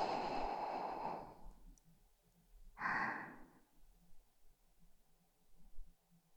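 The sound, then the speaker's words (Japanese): Slow, soft breathing from a boy drifting toward sleep: a long airy exhale, then after a pause a shorter breath, quiet and unvoiced, with faint rustling between. “ほら、もう一回。吸って、吐いて。”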